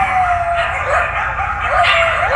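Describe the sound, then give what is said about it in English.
Coyotes yip and howl in an abandoned development in West Hollywood. Thin, wavering high calls rise and fall over a steady, noisy background. “These look like healthy coyotes.”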